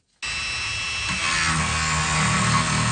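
A power tool cuts into 30,000-year-old fossil bone with a high, whining buzz that starts abruptly and holds steady and loud for nearly three seconds.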